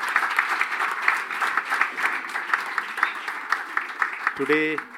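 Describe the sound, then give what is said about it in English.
An audience at a gathering of young people gives a round of applause, a steady rhythmic clapping that holds throughout. A voice briefly sounds near the end. “And I request our four people, let's give a good clap for their attendance”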